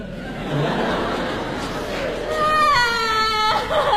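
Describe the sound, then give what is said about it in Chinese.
A child crying in a staged Beijing comedic drama scene, with wavering, high harmonic sobs that grow louder in the second half over a murmur of background chatter. “行行，别哭别哭别哭。”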